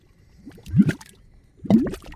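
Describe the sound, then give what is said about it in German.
Mud volcanoes near the Salton Sea, California, bubbling as hot gases push up through grey-brown mud, giving two thick, gloopy gurgling bursts about a second apart over a quiet low rumble. “Es brodelt gewaltig an der Erdoberfläche. Was man hier hört, sind Schlammvulkane.”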